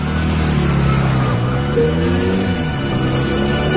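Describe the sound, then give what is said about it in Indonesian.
Car engine drones steadily as the vehicle is driven, a continuous low hum with slight wavering in pitch partway through and no talk. “Aku tetap konsen menyetir.”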